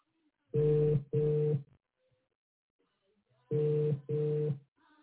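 A telephone rings in two pairs of short, steady double tones separated by a pause. Each tone is clear and buzzy, with no voices over it.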